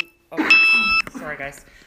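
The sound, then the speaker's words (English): Electronic alarm from a diabetic's blood sugar monitor: a short high beep, then a longer, steady, bright tone of about half a second that cuts off sharply. A voice briefly follows. “I'm a diabetic and that's an alarm. So I'm gonna silence that. I apologize, guys. I can't turn the ringer off on that. It means that my blood sugar's off, sorry.”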